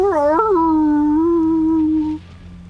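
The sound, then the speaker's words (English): A human voice imitates wolves howling in one drawn-out howl. It wobbles upward at the start, then holds a long, steady tone for about two seconds before stopping abruptly. “And his wolves start to go,”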